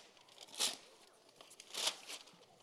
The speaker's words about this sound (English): You can unwrap this gift.